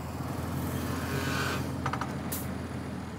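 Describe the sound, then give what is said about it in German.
Steady, low engine drone of a subsoiler rig driving over a potato field to loosen the soil before planting, a constant rumble with a few faint clicks partway through. “Vorab fährt ein Tiefenlockerer. Die Kartoffel braucht viel weichen Boden”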